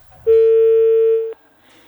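A single steady telephone line tone sounds after a call cuts off, holding one even pitch for about a second and ending in a sharp click, with quiet background before and after.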